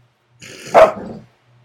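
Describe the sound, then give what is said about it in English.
Playful puppies growl and yap, a rough growl rising into one sharp bark and trailing off into more low growling, with no talk. “We got some puppy playtime.”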